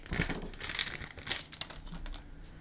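Crinkly wrapper crackles and tears as a pack of hockey trading cards is ripped open, a few quiet bursts of papery crumpling with brief sharp snaps.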